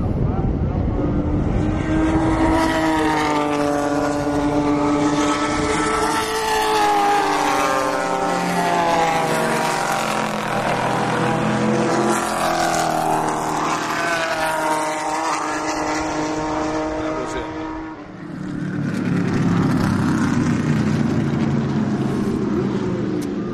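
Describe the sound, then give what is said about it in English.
A 1971 Corvette race car drives past during a race: a loud, rich engine drone with climbing harmonics builds over many seconds, then drops sharply in pitch as it passes and settles into a lower rumble. “1971 Corvette coming up. Should be any moment now.”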